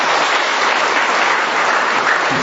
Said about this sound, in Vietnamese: cho một tràng pháo tay thưa anh chị em